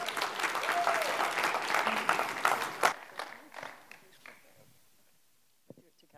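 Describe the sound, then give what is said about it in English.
A church audience applauds to welcome the pastor's wife as she comes up, a dense burst of clapping and cheering that holds for nearly three seconds, then thins and fades out. A brief voice comes in at the end. “welcome my wife as she comes today. Give her a great big hand.”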